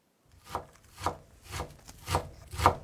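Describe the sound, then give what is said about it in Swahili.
A knife chops onions and mushrooms on a board in five soft, evenly spaced strokes, each a short dull thud with a faint scrape. “Kwanza tutakatakata vitunguu na uyoga. Katakata vitunguu kiurefu kwa mpishano wa takribani milimita 2 kisha ukikate kuanzia pembeni vipande vidogo vidogo.”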